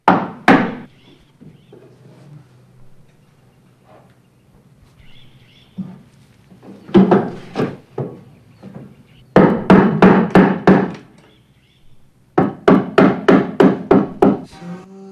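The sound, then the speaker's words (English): Wooden boards hammered over windows, with a few bursts of rapid, loud, hollow blows on wood separated by short quiet pauses and scattered single knocks between them. “While she lies unconscious, he is outside, hammering boards over the windows, shutting out the light.”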